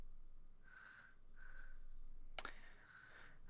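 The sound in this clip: A single sharp click of a pen, brief and faint, set against quiet, repeated humming tones in the background.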